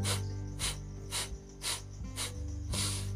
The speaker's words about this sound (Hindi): ऐसा ऐसा कुछ करके आपको मतलब आ, सांस लेना पड़ता है और छोड़ना पड़ता है तो मैं जो प्राणायाम के जितने भी मतलब जो मतलब क्या बोलते हैं कसरत हो गई या फिर प्राणायाम का जो भी अभ्यास वगैरह होता है